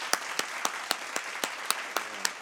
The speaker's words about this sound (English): So let's give Lisa a round of applause.